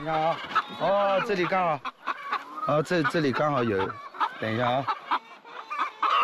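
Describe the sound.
Hens clucking on an egg farm, a busy stream of short, choppy clucks under steady talk.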